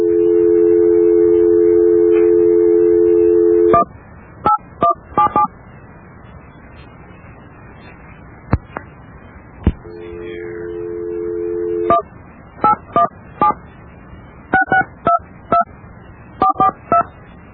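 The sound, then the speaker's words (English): Touch-tone telephone dialing during an attempt to reconnect a cut-off call: a steady dial tone gives way to many short, sharp DTMF beeps in uneven bursts, then a second steady tone and more quick beeps. “Well, we've dialed the number.”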